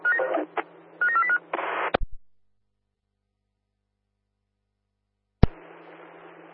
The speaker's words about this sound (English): Can you give me a call, please? Yeah, receive that, dialing now.